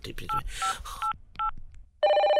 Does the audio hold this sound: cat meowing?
no